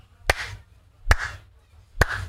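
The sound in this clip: Three slow, isolated hand claps, evenly spaced about a second apart, mimic the lukewarm applause that footballers gave after a pop singer's private performance. Each sharp clap decays quickly into near silence before the next.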